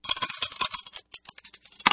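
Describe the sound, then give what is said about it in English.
Dice thrown onto a surface: a quick run of light clattering clicks and taps that bounce and then settle, fairly quiet and heard alone. “Let's throw the dice and see which one we're going to play.”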